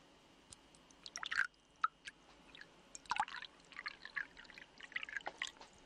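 Water is poured into a glass: soft, scattered splashes and drips, quiet and alone, with a few slightly louder spatters in the first half.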